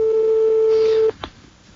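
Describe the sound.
A single long, steady telephone ringback tone sounds while a call waits to be answered. It holds one even pitch for about a second, then cuts off into faint background noise.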